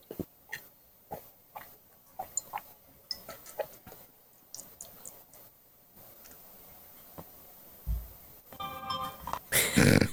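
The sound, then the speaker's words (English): An alarm clock ticks in a steady run of faint, regular clicks, then breaks into a loud, harsh ringing just at the end, set to mark the end of a break. “And that sound means we're back from the break. The alarm.”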